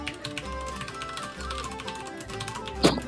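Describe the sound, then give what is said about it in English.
Typing: a quick run of many light taps over a steady tonal background, ending with a sharper, louder click. “Can you just type this out very quickly?”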